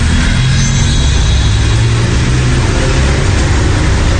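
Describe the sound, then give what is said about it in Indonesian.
A car engine runs hard as the driver steps on the gas, a loud, continuous low rumble with a steady roar that holds throughout without a break. “Sesegera mungkin ku tancapkan gas mobilku. Dan kini mobilku pun sudah melaju cukup kencang.”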